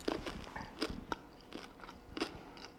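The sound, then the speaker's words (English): Teeth bite into a green M&M chocolate candy, giving a few faint, crisp crunches followed by softer crackling chews. “So I have this green candy here, and I taste it.”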